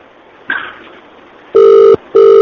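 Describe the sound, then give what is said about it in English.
A telephone call being dialled back: a soft click, then two steady electronic ringback tones, the second cut off at the end. “All right, we'll call back. See if they pick up.”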